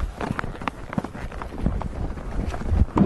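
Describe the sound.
Horse hooves clip-clopping at a trot during a ride: a steady, rhythmic patter of hoof beats that runs through the whole stretch at a moderately loud level.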